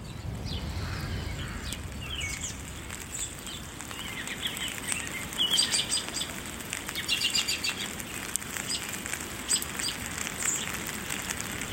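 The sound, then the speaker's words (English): American robins sing in the rain in an old cemetery on Mont Royal, with early spring snow on the ground. Scattered high chirps and short phrases rise over a constant hiss and patter of falling rain. “Here's the sound of American robins singing in the rain in the beautiful old cemetery on the back of Mont Royal.”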